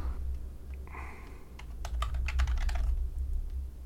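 Typing on a computer keyboard during a quick Google search: faint, rapid clusters of light key clicks in irregular bursts over a quiet background.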